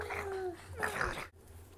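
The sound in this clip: A person imitates a dog with whiny, whimpering yelps in two short bursts of high, wavering vocal tones, fairly loud and alone.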